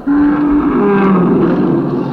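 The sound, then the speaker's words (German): An audio-drama effect of a dragon, the Lindwurm, roaring in pain. The roar is loud, low and sustained, a tonal, growling bellow that holds for the whole clip. “Hochauf ringelte der Lindwurm sich und vor Schmerz brüllend reckte er sich bis zu den Baumwipfeln empor.”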